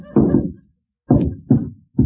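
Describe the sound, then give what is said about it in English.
Logs are thrown onto the fire of a boiler with four heavy, dull thuds: one on its own, then three more in quicker succession after a pause. “Now, I know all about boilers. I'll just throw in some more logs on the fire.”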